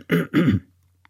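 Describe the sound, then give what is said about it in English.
Throat clearing by a man with a rough morning voice: two quick, gravelly rasping bursts in close succession, then silence with one tiny click at the end. “Clear that throat out.”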